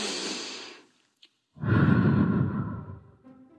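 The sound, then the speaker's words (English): Deep breaths taken before a walking fitness session: one breathy breath, a brief silence, then a second breath that is longer and louder and fades out gradually. “So, deep breath.”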